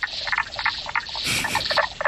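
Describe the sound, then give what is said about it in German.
Calls of a common spadefoot toad, an endangered toad of northern Germany, a rapid series of faint, short, clucking pulses repeating in an even rhythm. “Ja, es ist eine Kröte, genauer gesagt die Knoblauchkröte.”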